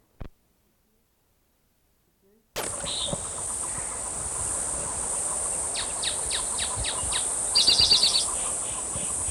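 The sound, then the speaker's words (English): Cicadas hum as a steady, high-pitched electronic-like drone that starts abruptly after a near-silent opening and continues to the end, with a run of short, sharp chirps rising over it near the close. “Hum of cicadas interfering.”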